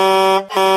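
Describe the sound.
Air horn of an MC Express fleet truck sounds loud and steady in two blasts, the first longer, with a brief dip between them.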